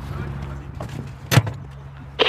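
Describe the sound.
Someone gets into a golf cart, with soft shuffling over a low steady hum, a solid thump near the middle and another bump at the very end.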